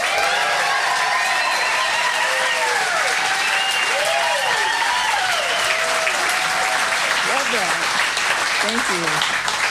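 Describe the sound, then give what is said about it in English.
Audience applause welcoming a guest at a Blue Mountains music festival, dense and sustained clapping throughout, with a voice speaking over it. “Folks, she's come a very long way. Can we have a raucous Blue Mountains welcome for Ruthie Foster?”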